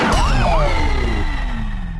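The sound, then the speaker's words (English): A police siren plays on a video game's radio station, a loud wailing tone that sweeps up and down over heavy low rumble, then glides steadily downward in pitch toward the end. “Time for police sirens. Wee-wee-wee.”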